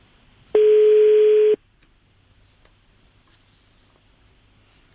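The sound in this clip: A single steady telephone line tone sounds on a radio phone-in call. It lasts about one second, holds an even pitch, and plays alone against a quiet background.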